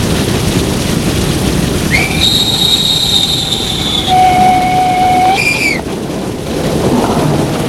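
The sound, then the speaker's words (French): A train pulls into a station, its broad rolling rumble joined for a few seconds by a high, steady metallic squeal of wheels or brakes that holds, shifts once in pitch, then cuts off. “Enfin, après 5 heures de train, ils arrivent.”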